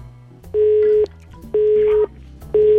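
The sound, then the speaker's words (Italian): Telephone call tone on a line, three steady mid-pitched tone bursts of about half a second each with equal pauses between them, the last one running to the end, over faint background hum. “Sta squillando.”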